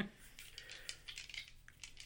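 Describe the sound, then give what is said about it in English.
Two twenty-sided dice clatter across a table during a tabletop role-playing game, giving a faint run of quick, light, high clicks and rattles. “So you want to roll 2d20. And you take the lower of the two. But don't use the gray one.”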